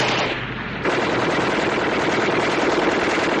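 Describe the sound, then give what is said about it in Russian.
Sustained heavy fire from a Maxim machine gun during a battle against advancing tanks and infantry. A dense, loud, continuous rattle runs almost the whole clip, with a brief softer dip near the start. “Плотный огонь пулемета «Максим».”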